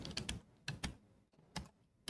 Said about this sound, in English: Let's type that in there.